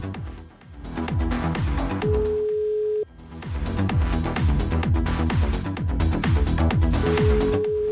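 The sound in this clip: Brazilian telephone ringback tone of an unanswered call sounds twice as steady one-second tones about five seconds apart, under loud, busy background music.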